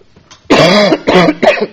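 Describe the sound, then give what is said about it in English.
Three harsh, loud coughs from a person with a cold come in quick succession, each a raspy burst, the first slightly longer than the two that follow. “Also, got a little cold going on, so I apologize if I'm coughing a decent amount.”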